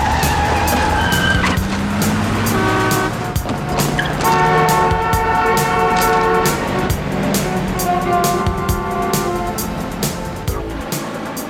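A car races down a city street chasing a taxi, its engine roaring loudly and steadily with tires squealing and skidding throughout, and no voices over it.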